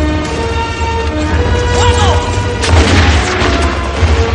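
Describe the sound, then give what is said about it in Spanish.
Bullets from a squad of soldiers hitting a closed wooden door, loud, dense noise with a sharp burst of impacts partway through. “Cierran la puerta y las balas impactan en la madera.”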